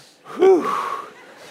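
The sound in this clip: A deep breath taken after panting, heard as a single loud gasping breath that rises sharply and then fades away.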